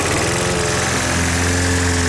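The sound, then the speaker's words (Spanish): A lawn mower engine runs steadily while cutting grass, giving a loud continuous drone with a low hum and rattling texture throughout, with no voices. “¿Cansado de perder horas cortando el césped?”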